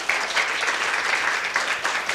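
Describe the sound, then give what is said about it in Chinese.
Church audience applauding in worship, giving applause to Jesus: a full, continuous patter of many hands at a steady, moderately loud level with no pause. “我们再一起给耶稣掌声。”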